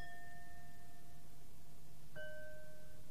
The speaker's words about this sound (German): Dabei griff sie auch schon nach den Stäbchen und berührte die Gläser damit.